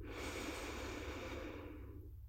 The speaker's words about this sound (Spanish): Suelta tus manos, respira profundo.